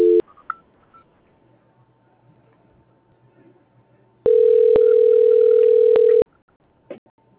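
Telephone dialing tones sound while a call is being transferred: a brief tone at the start, then a steady, loud two-second tone broken by a couple of clicks, and a short faint beep near the end, with quiet line noise between.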